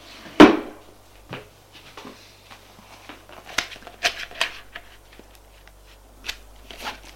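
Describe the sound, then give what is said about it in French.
A drawer is opened and a folder taken out: a sharp thud is followed by a few scattered clicks, knocks and light rustling handling sounds, with no talking. “Va à son tiroir, sort une chemise.”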